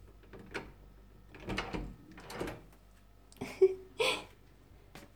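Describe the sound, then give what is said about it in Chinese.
A bedroom door opens with a few soft rattles and knocks, then sharper, louder clicks of the handle and latch near the end. “来，把你房门打开，让妈妈进来。”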